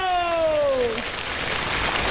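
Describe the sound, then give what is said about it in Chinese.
Audience applause breaking out after a held, falling vocal note, turning into a dense, hissing wash of clapping that carries on to the end. “大家来点掌声和尖叫”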